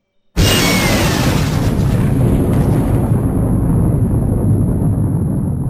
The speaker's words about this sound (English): While he's casting resistance, I'm going to first hit it with fire breath.